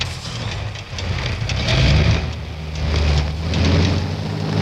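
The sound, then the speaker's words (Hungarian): A car engine revving at full throttle while the car is stuck in mud. A low droning roar swells and eases in waves over a constant hissing, churning noise. “Na, vegy át a volán, majd én kiszállok. Ha szólok, akkor adjon teljes gáz. El kell jutnunk még ma Udinébe különben. Gáz neki, főhadnagy úr!”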